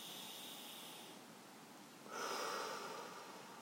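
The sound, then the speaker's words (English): Slow, deep breathing to calm down: a soft, airy breath is followed after a short pause by a longer, louder deep inhale, faint and breathy with no talking. “the best way for me to really calm down is to breathe in”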